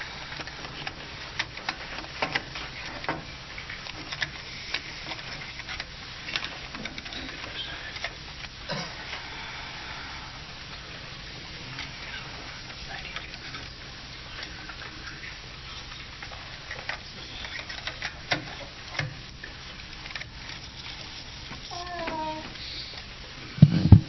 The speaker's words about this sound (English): Time to change the tape.